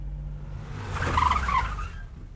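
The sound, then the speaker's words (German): A car pulling up and stopping at the second streetlamp: a low engine rumble under a swelling rush of tyre noise that peaks briefly, then fades away. “So, jetzt hier, bei der zweiten Laterne halten.”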